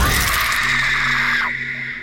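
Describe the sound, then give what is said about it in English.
A person screams in pain as a bear trap crushes flesh and bone in a small room. The cry is a sustained, high, harsh wail that bends downward and fades near the end. “I screamed, and it echoed only briefly before being consumed by the silent weight of the room.”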